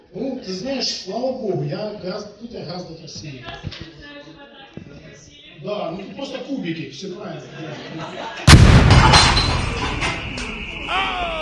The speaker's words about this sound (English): They present him with the statue like some kind of an award, but dipshit doesn't realize that statuette is actually a fucking bomb. Let's listen to how happy he is to get his award.